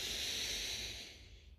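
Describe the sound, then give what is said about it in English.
A slow, deep breath in during a guided relaxation exercise, heard as a steady airy hiss that thins and fades toward the end. “Today I just want you to take one deep breath in and then sigh it out. And when you sigh it out, I just want you to close your eyes and allow it to close again. So breathe in deeply.”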